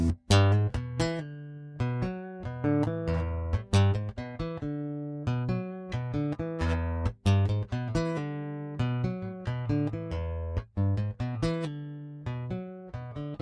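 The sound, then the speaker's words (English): Iconic rock riff played fingerstyle on an acoustic guitar, crisp plucked single notes repeating in a steady looping pattern, played alone with clear ringing tones and no voices. “I'm playing this on an acoustic with my fingers”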